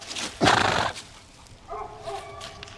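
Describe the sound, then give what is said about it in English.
A horse on a farm makes a loud, breathy burst, then after a short pause gives a softer, tonal neigh. “That's me at a farm in October 2022. I was there to interview a writer named Courtney Malm about horses.”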